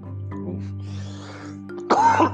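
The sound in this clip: A single rough, raspy throat clearing bursts out near the end, loud and short after a quiet stretch of low background hum.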